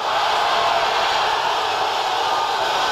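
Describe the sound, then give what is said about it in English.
Football crowd at a Spain versus Argentina match roaring in celebration of Spain's goal by Ferran Torres, a dense, continuous roar held at constant loudness throughout. “the crowd celebrated wildly as Ferran Torres put Spain in front.”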